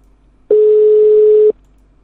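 A single steady telephone tone sounds for about one second, a loud, pure mid-pitched beep that starts and stops abruptly against near silence.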